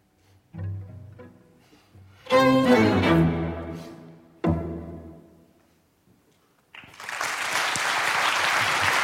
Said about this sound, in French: Le public est absolument conquis, comme vous pouvez l'entendre.